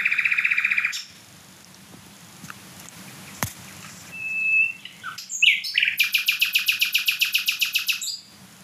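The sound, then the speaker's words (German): Loud song of a small songbird, smaller than a blackbird, heard alone: a buzzy opening phrase, a pause, a thin clear whistle and a few sharp notes, then a fast, high trill of many rapidly repeated notes. “der Vogel ist kleiner als eine Amsel. Das ist, auch wenn jetzt kein anderer Vogel singt und so weiter, mega laut trotzdem.”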